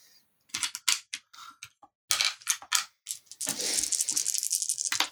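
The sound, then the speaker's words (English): Many dice rolling during a tabletop game: a few sharp, scattered clicks and clacks, then a longer, dense clattering rattle that keeps on to the end, with no talk over it. “I'm not used to rolling so many dice with this character.”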